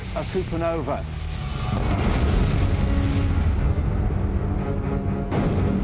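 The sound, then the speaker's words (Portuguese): A deep, rumbling boom stands in for a supernova explosion, the collapse of a star's iron core. It follows a brief voice, then swells into a loud, sustained roar that carries on to the end. “Quando o núcleo de ferro atinge uma determinada massa, chega a um ponto em que não há mais sustentação e o núcleo explode, dando origem a um buraco negro e produzindo, ao mesmo tempo, uma supernova.”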